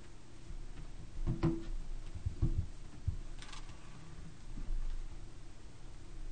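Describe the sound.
Computer mouse clicks: a few sharp, light ticks scattered unevenly over steady background hiss.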